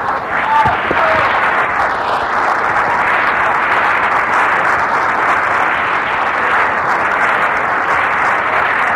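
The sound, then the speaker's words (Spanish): Sustained audience applause after a stage demonstration: many hands clapping in a dense, even roar for about nine seconds, with a brief voice near the start. “Gracias, Abel. Un aplauso para Abel.”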